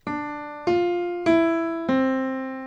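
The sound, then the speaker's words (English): Four evenly spaced notes of a short melody played in retrograde, with the note order reversed in time. Each bright tone strikes sharply and then decays, moving in small pitch steps. “Then there is retrograde, which mirrors the music in time so that it's played backward.”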